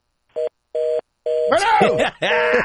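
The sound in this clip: Telephone keypad dialing tones: three short, even beeps in a row, then a longer tone that continues while a voice speaks over it.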